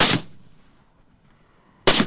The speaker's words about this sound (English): He's shooting a target with his Kalashnikov.